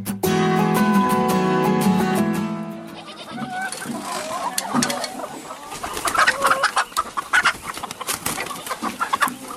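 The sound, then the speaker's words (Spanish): A Pitu de Caleya chicken clucks and calls. A sustained tonal call comes first, followed by many irregular, sharp clucks and squawks that come in uneven bursts. “Quien lo prueba se rinde a su sabor, porque el pitu de Calella no es solo un pollo, es un manjar.”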